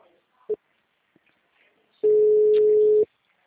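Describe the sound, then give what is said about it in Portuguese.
Telephone tone after a dropped call on a line with bad signal: one short beep, then a pause, then a single steady mid-pitched tone lasting about a second before cutting off into silence. “A ligação caiu. Estou no lugar ruim de sinal.”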